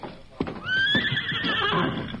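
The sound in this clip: A horse whinnies at a hitch rack. After a brief thump, it gives a loud, high, wavering neigh that lasts well over a second, with a few hoof clops beneath.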